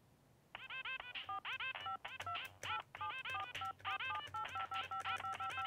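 Telephone keypad buttons are pressed rapidly on a home-built phone while a song plays through its audio mixer. Many short, bright dialing beeps follow one another quickly over a steady low hum.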